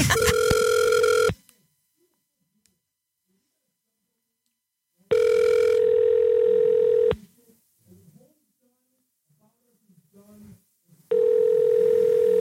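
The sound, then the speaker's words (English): Ringback tone of an outgoing telephone call: three steady electronic tone bursts, the first cut short, separated by several seconds of near-silence with a few faint sounds in the gaps. “Do you want me to call them? Yeah, sure.”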